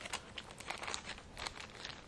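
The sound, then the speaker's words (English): Plastic bag crinkling as a small part is slipped inside, a faint, irregular run of soft crackles and rustles with no voices. “Okay, now it's off, and I'm going to put it in this other little plastic bag”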